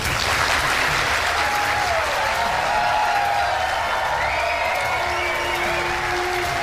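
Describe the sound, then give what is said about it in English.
A standing ovation for Donald Trump at a Republican primary town hall: loud, continuous applause from a large audience, a thick unbroken wash of clapping that holds steady throughout. “He's getting a standing O before he even sits down in a Republican primary town hall event.”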